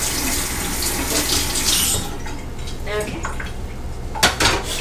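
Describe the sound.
Running tap water rushes into a kitchen sink while dishes and a knife are washed; a steady wash of water fills the first half, then sharp, scattered clinks of cutlery and crockery follow.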